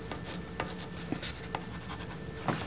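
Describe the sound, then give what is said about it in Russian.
Pen writing on paper: faint, dry scratching strokes in short, irregular bursts over quiet background hiss, with no talk. “вот я прямо на глазах пишу вот здесь”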